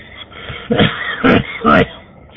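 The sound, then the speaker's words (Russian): A person coughs three times in quick succession over a radio link, each a short, harsh, muffled burst. “Закашлялся. Прошу прощения.”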